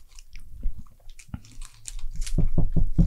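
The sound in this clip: Crunchy chewing and biting of a candy bar being compared with a Kit Kat: soft, uneven mouth sounds at first, then a run of four crisp, evenly spaced crunches toward the end. No one speaks.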